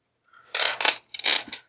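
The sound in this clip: Six dice rattle and tumble during a tabletop game, making two short, bright clattering bursts one after the other with no talk.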